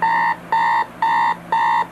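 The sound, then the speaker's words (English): A standard GE classic alarm clock beeping in four evenly spaced electronic bursts, each a bright, steady tone of fixed pitch, loud and alone. “I do have a standard GE classic alarm clock right beside my bed. But that alarm sounds like this.”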